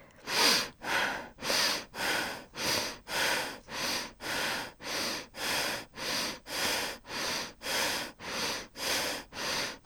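Rapid, rhythmic breathing from a pelvic-focused breathing exercise: many strong, evenly spaced breath bursts, each a loud airy rush, repeating steadily and alone with no talk.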